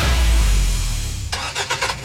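A car engine starts and revs: a loud, deep rumble fades away, then a few sharp, broad revving bursts follow in quick succession, with no talk.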